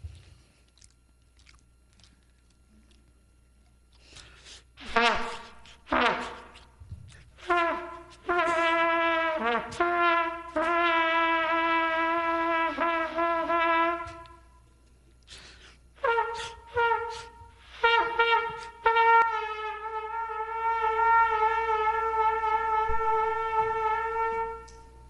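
A beginner plays long whole notes such as G or C on a trial cornet in a cottage. Several clear brassy notes are held for seconds, each starting with short, uneven, spluttery attacks.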